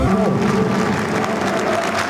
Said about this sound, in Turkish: Alkışlar Fraport Antalya Spor'a. Onların da emeklerinin hakkını teslim edelim.